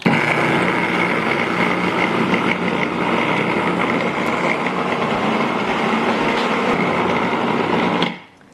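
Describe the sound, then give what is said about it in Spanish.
A food processor grinds a strawberry sauce mixture with a steady, loud motor whir and blade buzz that runs without a break, then cuts off abruptly near the end. “simplemente raspar los lados del procesador para que se muelan bien todo junto”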